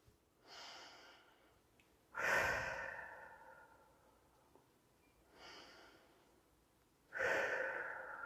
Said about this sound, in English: we're going to take 4 deep breaths. We're going to breathe in through our nose and exhale through our mouth.